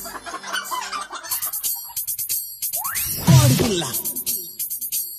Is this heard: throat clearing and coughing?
no